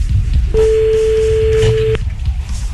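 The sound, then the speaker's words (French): A single steady telephone tone sounds as a call to someone's mother is placed. The clean, mid-pitched electronic beep lasts about a second and a half over low background noise. “C'est parti, on appelle ta mère.”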